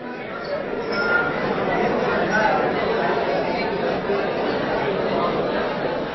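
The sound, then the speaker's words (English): Delegates at an IMO shipping climate meeting in London fill the space with indistinct chatter, a steady murmur of many overlapping voices with no single speaker standing out. “This is the sound of delegates trying to decide the best way to align global shipping with the Paris Agreement temperature goal of 1.5 degrees.”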